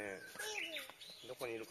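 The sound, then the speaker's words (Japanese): A Japanese bush warbler (uguisu) sings faintly in short whistled phrases, mixed with people talking quietly. “ウグイスが鳴いてますね。”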